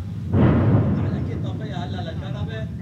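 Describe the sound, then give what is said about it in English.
An Israeli airstrike explodes near a village. A heavy boom hits abruptly, then rumbles and slowly fades, and a voice talks over the decaying tail. “As we enter the village, there are more Israeli airstrikes nearby.”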